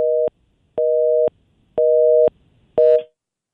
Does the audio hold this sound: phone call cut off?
yes

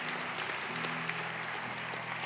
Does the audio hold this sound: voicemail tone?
no

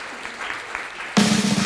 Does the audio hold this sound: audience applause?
yes

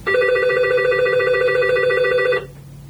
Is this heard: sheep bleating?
no

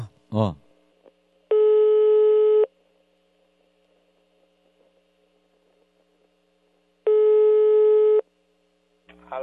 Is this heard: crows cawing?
no

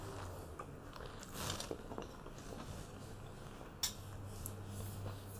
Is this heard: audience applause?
no

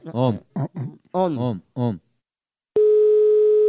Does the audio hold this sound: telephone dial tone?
yes

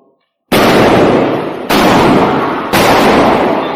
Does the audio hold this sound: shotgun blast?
yes

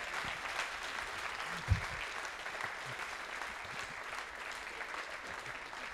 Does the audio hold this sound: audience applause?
yes

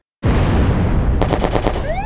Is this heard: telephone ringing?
no

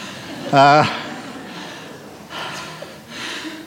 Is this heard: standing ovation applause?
no

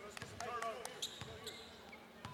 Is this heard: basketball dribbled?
yes

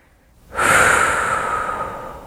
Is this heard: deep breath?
yes

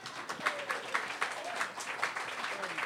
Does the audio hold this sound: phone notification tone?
no

